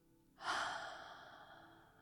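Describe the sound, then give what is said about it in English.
A deep breath exhaled through the mouth: one long, breathy rush that starts abruptly, then slowly fades out on its own with no talk over it. “Fill your lungs to the top with me. And exhale through the mouth.”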